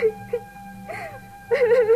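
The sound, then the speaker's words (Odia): A person crying and sobbing: high, wavering whimpers and wails in short bursts, rising into a longer, louder quavering sob at the end over a low steady background drone. “ସକାଳୁ ସକାଳୁ ଏତି କାନ୍ଦୁଛି ଦେଖୁଛି ତ ନାନୀ, ଏ ନାନୀ ନାନୀ କାଁ ହେଲା ଯେ କାନ୍ଦୁଛୁ”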